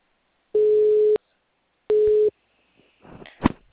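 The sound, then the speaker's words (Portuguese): Telephone tone on a call that goes unanswered: two steady, mid-pitched beeps separated by a short silence, followed by a brief crackle. “Não, não atendeu. Só chama.”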